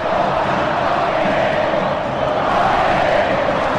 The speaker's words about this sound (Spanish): Canta el público de Instituto, una canción de las mejores del fútbol argentino. Que se escuchan por el público para toda la cadena nacional.